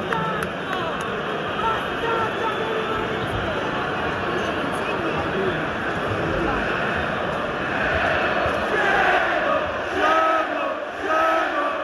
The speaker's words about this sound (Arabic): الجماهير تحتج على طرد مدرب روما جوزيه مورينيو.